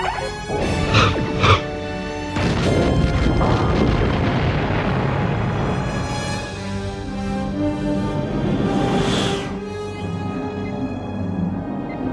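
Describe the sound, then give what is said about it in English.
Starship torpedo fire and explosion effects: a loud, sustained rumbling roar with a few sharp booms early on, the heavy din rolling on for about twelve seconds before thinning out. “Fire torpedoes.”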